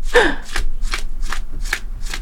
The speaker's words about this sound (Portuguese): Eu ah, passando as cartas assim, ó. Pede pra parar quando você quiser.